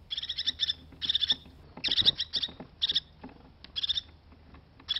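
A crested tit in a spruce forest calls in short bursts of high, thin, rapid trilling chirps, repeated many times over a faint low rumble.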